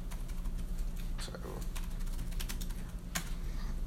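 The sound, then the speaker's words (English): Typing on a computer keyboard in a QWERTY layout while working in a virtual machine: many quick, light key clicks in uneven bursts over a steady low hum. “I type Dvorak normally, and of course the VM wants a QWERTY layout, so.”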